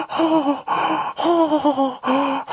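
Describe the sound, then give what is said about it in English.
A person imitates an overheated flat-faced dog with a squashed snout struggling to breathe: four loud, strained, voiced gasping wheezes in quick succession, each with a wavering pitch and brief pauses between them. “these dogs have these little smushed faces. And so when they get too heated up, they can't breathe.”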